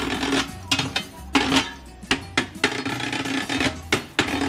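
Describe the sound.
Spoons clack together as percussion in a busy, uneven rhythm of many sharp wooden-metallic clicks and knocks, with brief pauses between quick flurries.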